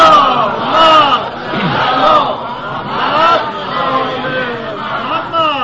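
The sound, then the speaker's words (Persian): A crowd at a religious sermon recites salawat together in unison. Many voices blend into loud, swelling chanted phrases that rise and fall several times. “اگر خسته نشدید یک صلوات محمدی خط بکنید.”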